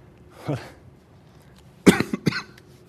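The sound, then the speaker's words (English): Allergy-driven coughing in New Hampshire: one harsh cough, a quiet pause, then a quick cluster of several sharper, louder coughs, with no talk in between. “Excuse me for my allergies here in New Hampshire.”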